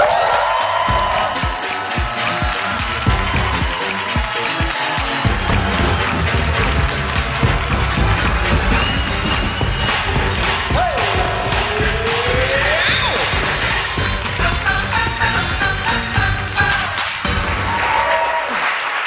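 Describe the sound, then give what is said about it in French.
A studio audience cheering wildly to welcome the host of a Quebec television game show: loud, continuous applause mixed with cheers and whoops that holds steady for almost twenty seconds. “Un public en délire pour vous accueillir.”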